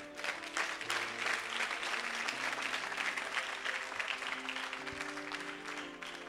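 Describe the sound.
Applause from a church audience, dense and sustained clapping that stays steady and fairly loud for about six seconds.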